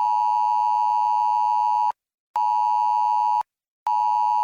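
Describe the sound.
A loud, harsh Amber Alert emergency tone repeats as long steady bursts broken by short silent gaps: two full bursts, then a third that starts just before the end.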